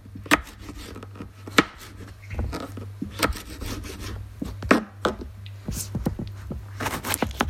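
A knife slices an onion into thin strips, giving a series of sharp, irregular cutting strokes with soft scraping between them, over a low steady hum; no one speaks.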